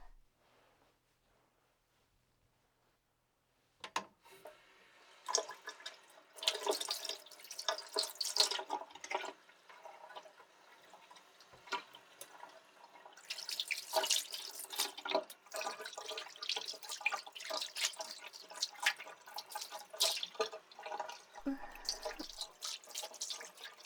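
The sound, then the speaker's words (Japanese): Tap water runs and splashes while shampoo is rinsed out of hair. A few seconds of near silence come first, then a steady, uneven spatter of water with louder surges that lasts to the end. “じゃあ、シャンプーをお湯ですすいじゃうね。”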